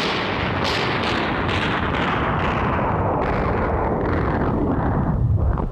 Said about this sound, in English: Stop all that dreadful shooting, old man. All right, wait a minute. Let me kill the sound effect here.